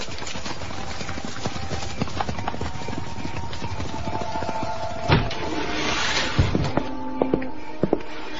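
Horses ride off, their hooves clip-clopping steadily on hard ground under a low background hiss, with several sharper, louder hoof strikes standing out toward the end.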